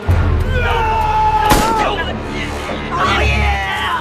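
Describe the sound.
A single sharp gunshot cracks out in a tense dramatic confrontation, a brief loud burst that cuts through ongoing voices and a low sustained background.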